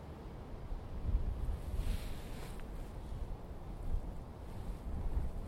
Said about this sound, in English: This is a ferocious wind today.